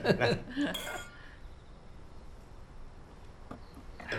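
Glasses clink together in a toast at a family dinner welcoming a son home, a few bright chimes close together at the start, then quiet table clatter and a faint clink near the end.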